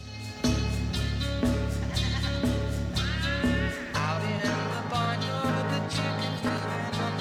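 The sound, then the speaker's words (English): Vocalists imitate barnyard animal noises on a studio track called Barnyard, with sheep-like bleating cries over a steady musical backing that pulses in a regular repeating rhythm. “There's one track where he has the vocalists even make like animal noises on this track. It's called Barnyard.”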